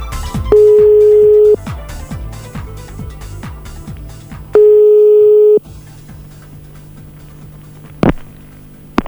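Telephone ringing tones while a call is placed: two long, steady, loud tones of about a second each, separated by a gap of several seconds over a continuous background.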